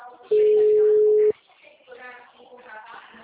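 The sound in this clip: A telephone ringback tone sounds while someone calls a number again. One long, steady mid-pitched beep is heard, followed by quieter talking.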